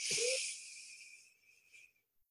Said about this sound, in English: taking some deep breaths in through our nose